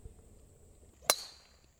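A golf driver strikes the ball on a tee shot with one sharp, bright crack that rings briefly and fades, standing alone against a quiet background with a faint steady tone.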